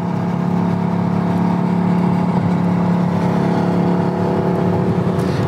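Engine roar of a Mercedes-AMG GT with its sport exhaust switched on, held as a loud, steady, throaty drone with rich low harmonics that carries unbroken through the whole clip, with no voices over it.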